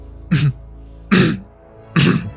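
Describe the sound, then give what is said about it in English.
Three short, rough coughs, evenly spaced about a second apart, each a throaty burst of similar loudness with quiet between them. “you got a cough there?”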